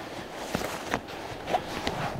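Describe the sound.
Footsteps of someone walking further along: a few soft, irregularly spaced steps, faint and alone, with no talking.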